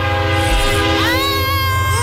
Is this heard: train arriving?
yes